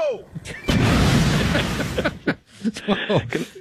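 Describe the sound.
A dynamite explosion sound effect erupts as a loud, roaring burst of noise lasting over a second, then fades into talking voices.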